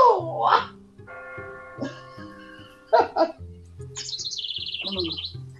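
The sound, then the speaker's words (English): Birds chirping with short calls over low, sustained tones, ending in a rapid, high warbling trill that repeats steadily for more than a second. “The birds and the fucking bell.”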